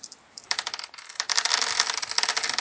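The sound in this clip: Eight dice clatter and rattle as they are rolled for a tabletop role-playing game, a busy run of sharp clicking bursts that starts after a quiet moment and keeps going to the end.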